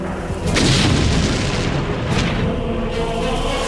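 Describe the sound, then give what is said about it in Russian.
Hand grenade explosions in a war film battle scene, thrown one after another at a hospital near a trench and pillbox. Two heavy, deep booms burst out with rumbling noise between and after them. “Выдернув чеку, Борман поочередно бросает гранаты в больницу.”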